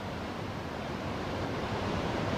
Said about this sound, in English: he became upon a previously unknown waterfall. Here's a short little video of that falls.